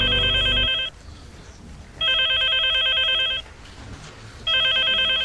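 A telephone ringing: three bright electronic ring bursts separated by short pauses, the last one cut off, with no voices.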